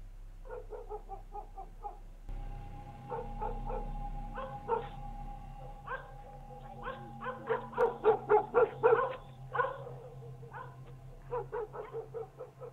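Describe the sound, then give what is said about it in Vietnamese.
Dogs barking at night on a dark village road, with many sharp barks and yips in irregular bursts that grow denser and louder toward the middle before easing off. “Đâu đó tiếng chó nhà nào cắn ma cứ nhấm nha nhấm nhặng vang lên.”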